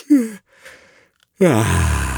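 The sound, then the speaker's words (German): A person gives a strong, wide-jawed yawn as a speaking warm-up: a short voiced yawn with falling pitch, a pause, then a longer, louder voiced yawn that also drops in pitch. “kräftig gähnen, damit wir das Kiefer weit, weit aufkriegen.”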